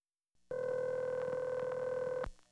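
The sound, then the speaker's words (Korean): A public telephone gives a steady, loud dial tone that starts after a soft click, holds for almost two seconds, then cuts off with a sharp click. “Dan va a un teléfono público para llamar al hotel ABC.”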